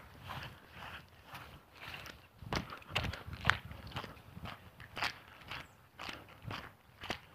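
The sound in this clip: Footsteps walk across grass in a soft, steady series of many muffled thuds and light scuffs, faint throughout.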